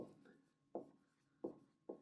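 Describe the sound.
Handwriting of the Spanish word nombre, faint scratching strokes that give way to three sharper, louder scrapes, each fading quickly, heard alone without any voices.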